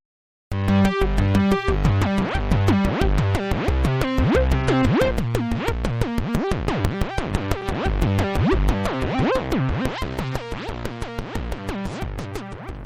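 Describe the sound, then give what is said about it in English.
Software synthesizer modelled on a prototype polysynth plays a fast, busy pattern of many repeating bright notes over a steady low pulse, loud and alone from start to finish. “That's the sound of the new software synth from Zill's Lab.”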